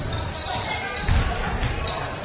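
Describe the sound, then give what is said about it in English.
A basketball is dribbled during a game as a player crab-dribbles into the lane. A few dull low bounces thud under a steady, noisy background. “dribbling to the lane, just kind of crab dribbling his whole way in.”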